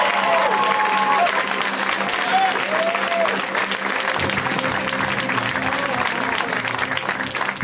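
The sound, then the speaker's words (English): Sustained audience applause at a stand-up comedy show, loud and continuous clapping from a crowd that carries through the whole stretch without a break. “Keep it going for Cameron”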